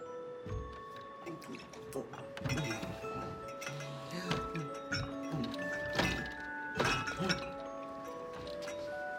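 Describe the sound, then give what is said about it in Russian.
Someone tries to open a locked cabinet in a house at night, making faint knocks, soft thunks and metallic clinks at irregular intervals. “Шкаф закрыт на замок.”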